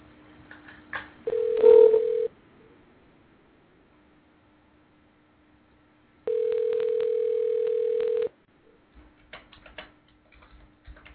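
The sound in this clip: Telephone call tones on a phone line: a steady low tone runs throughout, broken by two longer, louder ringing tones, with faint clicks and ticks around them.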